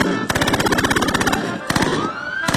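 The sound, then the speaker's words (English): A Tommy gun machine-gun barrage: a rapid, evenly pulsed burst of loud shots runs for about a second, then shorter bursts follow after a brief pause. “Suddenly, a barrage of Tommy guns.”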